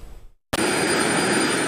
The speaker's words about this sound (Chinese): 接到命令后，担负应急救援的直升机快速到达目标地域。